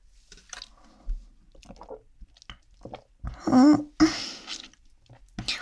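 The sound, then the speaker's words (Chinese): Sips of a shop's home-brewed drink, heard as a few brief wet slurping and swallowing sounds separated by quiet gaps, with one louder gulp near the end. “店家自己泡的吗？你要不要喝？不用，那我喝喝看。”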